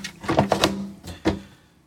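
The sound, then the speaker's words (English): Latch on the side panel of an Apple computer case being opened: a quick cluster of plastic and metal clicks and clacks, then a short pause and one sharper clack, fairly faint, with no talking. “it looks like the panel comes off on the right side of the case. Where's the latch? Okay, here's the latch.”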